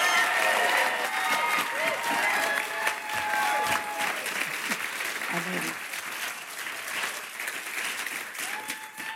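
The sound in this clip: Audience applause welcoming a guest author on stage at a club talk, sustained, dense clapping that stays fairly even before slowly thinning, with a few voices mixed in.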